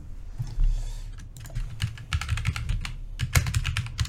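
Computer keyboard typing comes in quick, irregular bursts of many crisp key clicks with short pauses between them, moderately loud and with no talk.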